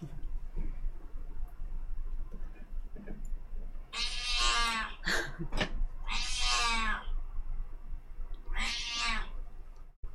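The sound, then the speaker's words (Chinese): A cat meowing several times, drawn-out whining calls with a couple of short chirps between them, clear over a faint low background hum. “系啦，只猫猫都系一个嘉宾。”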